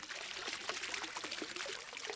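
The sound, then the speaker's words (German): Soft, continuous trickling and splashing of water in a long, stretched-out school courtyard fountain with five water channels set into the ground. The flow stays faint and steady, with small irregular splashes throughout and no voices. “Im Innenhof der Schule ist ein langgestreckter Brunnen mit 5 Wasserläufen im Boden.”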